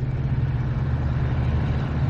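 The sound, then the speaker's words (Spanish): A coupé's engine on a road during a night-time highway scene in a thriller film, heard as a steady, low rumbling drone with constant loudness. “El coupé acelera y se aleja por el carril derecho.”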